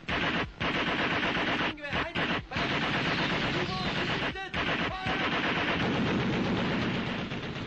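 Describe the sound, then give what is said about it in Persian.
Heavy gunfire from a ship at people surfacing in the water: a dense, loud, almost unbroken barrage of rapid shots with a few brief gaps, sustained throughout. “با این تیراندازی اونها زنده نمیمونن.”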